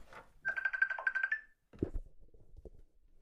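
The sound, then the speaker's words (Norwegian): A FaceTime video call rings: a single bright, warbling ringtone lasts about a second, then a quiet voice follows after a short pause. “Da skal vi ringe helsebroren”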